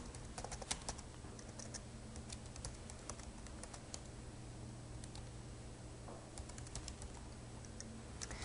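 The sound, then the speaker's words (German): A chat message is typed on a computer keyboard as many quick, soft key clicks in an irregular rhythm with short pauses, faint over a steady low hum. “Und ich werde jetzt dem Christian hier einfach mal eine Nachricht schreiben.”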